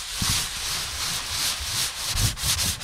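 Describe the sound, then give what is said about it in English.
A piece of pumice sands the rough surface of a shaved skin, making a continuous, hissing abrasive rub built from repeated back-and-forth strokes at a steady level. “All right, so here I have a piece of pumice. I'm going to try to sand the skin surface after the shaving process because the surface of the skin now is pretty rough.”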